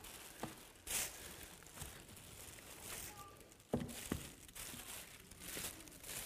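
Crinkling of wrapping paper on gift packages comes through as irregular rustles and crackles, with a few sharper, louder bursts standing out among softer handling noise.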